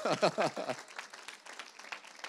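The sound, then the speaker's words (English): Audience applause at a church gathering, many hands clapping in a steady, dense patter that starts loud and settles into an even, moderate level, with a brief voice heard at the very start. “Let's give Exhibit A, B, and C a round of applause.”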